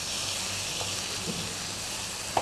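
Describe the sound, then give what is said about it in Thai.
Roasted chili paste and shrimp stir-fry in a pan with a continuous, fairly faint sizzling hiss, and a brief knock near the end. “ผัดให้น้ำพริกเผาเข้ากันกับกุ้ง”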